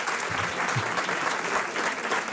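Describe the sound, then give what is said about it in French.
A studio audience on a radio show applauds a guest lawyer with brisk, dense clapping. The clapping holds strongly and evenly throughout, with no voice over it. “vers Maître Felloneau, qui est là et que vous pouvez applaudir, qui a été la première à parler.”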